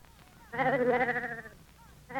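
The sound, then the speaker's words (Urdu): A sheep bleats: one long, loud, quavering bleat lasting about a second, then a fainter stretch before another bleat begins at the very end. “وہ بولی کہاں کی تھی وہ میری بھیڑ ہے”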